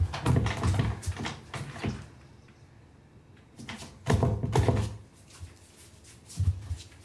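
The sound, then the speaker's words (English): A doorknob rattles and a door jolts as two people struggle over it from either side, in bursts of clattering, thumping noise with a quieter gap in the middle. “They both struggle over the doorknob from either side.”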